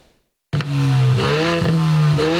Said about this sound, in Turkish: Önce egzozundan yüksek ses çıkan bir sürücü radara takıldı.